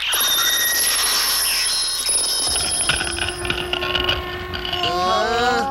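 A magic door in an animated film opens on command with mechanical creaking and ratcheting under bright, shimmering high tones, then a cluster of rising whistle-like tones near the end.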